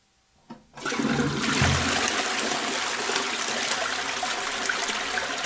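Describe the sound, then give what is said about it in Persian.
Water rushes into a toilet bowl refilling after a flush: a soft click in near silence, then a sudden, steady hiss and gurgle that stays loud to the end. “کاسه توالت بعد از سیفون ایشون”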